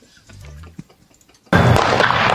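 A starting gun cracks at a girls' 100-meter race: after a quiet stretch with faint low sounds, one abrupt loud report bursts out and turns into sustained, dense noise that holds to the end.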